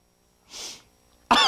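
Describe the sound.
A single short, breathy cough from someone with something stuck in the throat, followed after a brief pause by a voice starting to speak.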